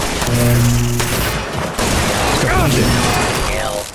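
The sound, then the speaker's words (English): Robots firing guns in a video game battle: dense, loud bursts of synthetic gunfire and mechanical clatter, with whining tones that sweep downward. The noise runs without a break. “Another robot shooting at us. Security. Now they're having a robot battle.”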